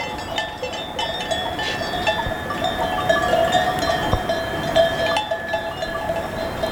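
Bells of a herd grazing in a high mountain valley, many irregular clinks and clanks ringing on and off over a faint, steady background, with no voices.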